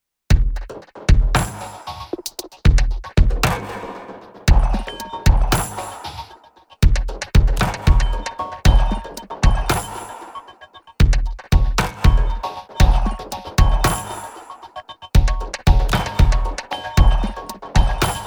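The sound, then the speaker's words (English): Wind chime samples, each triggered by a MIDI note, form a drum beat: many sharp metallic hits in a steady repeating rhythm, each with a bright ringing tail, with short breaks near the start, middle and end. “each MIDI note triggers a different kind of random part of that full chimes sample”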